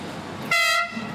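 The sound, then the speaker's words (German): A rack railway train on the line up Mont Blanc in France gives a single short horn blast, a steady harmonic tone lasting about a third of a second over low background noise. “Die Rede ist von der Tramway du Mont Blanc, der höchsten Zahnradbahn in Frankreich.”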